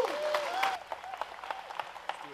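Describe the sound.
Audience applause welcomes a speaker at Journey Church, a quiet, steady patter of many hands clapping.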